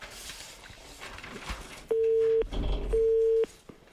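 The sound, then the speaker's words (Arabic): A telephone busy signal on an engaged line: two steady, loud beeps of about half a second each, separated by an equal gap, over faint background noise. “إذن الرقم مشغول، ربما في مكالمة، لأن سبق وتكلمنا معاه.”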